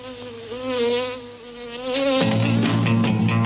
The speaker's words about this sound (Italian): Accidenti alle zanzare.